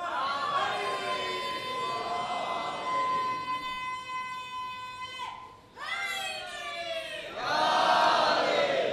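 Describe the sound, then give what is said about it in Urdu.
A crowd raises the Naara-e-Haidari slogan in honour of Ali: a long, sustained, tonal call holds steady, breaks off briefly, then massed voices surge back in unison and swell louder toward the end. “اب تو نعرہ حیدری لگا لو جو صحیح وقت ہے.”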